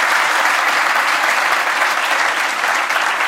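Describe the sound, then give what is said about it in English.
A live audience applauds to thank a guest speaker before a question session. Loud, thick clapping from a crowd runs unbroken and even throughout, with no voices rising above it. “Yeah, please give a hand.”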